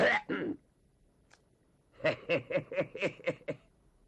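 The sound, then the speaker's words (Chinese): A voice imitates throat clearing, with a short raspy vocal burst followed by a quick run of about seven short, rhythmic voiced pulses, all fairly loud against near silence. “先清了清嗓子”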